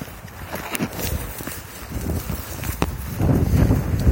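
Brisk footsteps walking fast up a hill outdoors, a continuous rhythm of scuffing steps under steady wind noise that grows slightly louder toward the end, with no talking.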